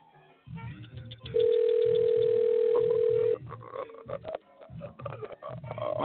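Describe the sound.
A telephone call rings out waiting for an answer: one long, steady, loud tone holds for about two seconds over low, rhythmic background sounds.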